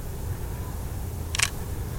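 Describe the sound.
A camera shutter snaps once during a portrait photo shoot, one brief crisp click rising out of a quiet, hissy background.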